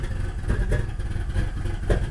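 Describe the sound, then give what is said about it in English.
Engine note of a Pontiac Grand Prix GTP with an overhauled supercharged 3.8 liter V6, a low, fairly quiet rumble with a steady, loping pulse that repeats several times. “What you guys are listening to is my brother's Pontiac Grand Prix GTP.”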